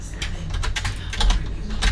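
Rapid typing on a computer keyboard, many light keystrokes clattering in quick, uneven succession, steady and fairly loud with no talking.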